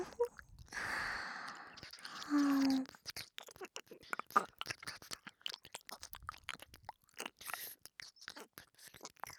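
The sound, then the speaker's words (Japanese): Wet licking and mouth noises: many soft smacks, slurps and tongue clicks come in an irregular run. They are quiet and close, with a short, louder smeared passage early on and sparse clicks afterward. “全部舐め取ってやるからな。”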